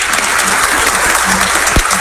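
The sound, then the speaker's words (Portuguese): A church audience applauds a married couple after a blessing. Many hands clap densely and loudly without pause throughout. “Vamos dar uma salva de palmas para eles.”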